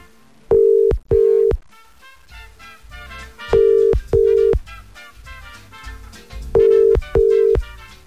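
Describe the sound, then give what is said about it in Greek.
Ringback tone of an unanswered telephone call: three double rings, six steady mid-pitched electronic tone bursts in evenly spaced pairs, separated by pauses with a faint background underneath. “Μπα. Δεν το σηκώνει ο Νίκος.”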